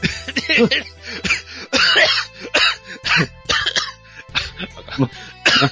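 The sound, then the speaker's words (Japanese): Coughing fit from someone genuinely choking: many harsh, raspy coughs in rapid clusters, broken by short gasps, loud and nearly continuous. “芝居しようと思ったらマジでむせた。”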